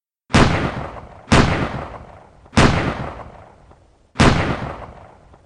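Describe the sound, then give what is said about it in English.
Four pistol shots from a Colt 1911, evenly spaced and roughly a second apart. Each is a sharp, loud crack with a decaying boom tail, and no voices are heard. “Without thinking, without blinking, Joseph Doherty raised his Colt 1911 in the direction of Frederick Bronski and fired four shots. One missed, hitting a presumably false Chinese vase and shattering it into pieces.”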